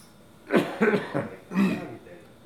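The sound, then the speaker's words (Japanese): Coughing from a lingering cough that has lasted since late January and is blamed on pollen, with a few rough, throaty bursts in quick succession, the last one longer, each separated by brief pauses. “ちょっと咳が全然抜けないんですよね”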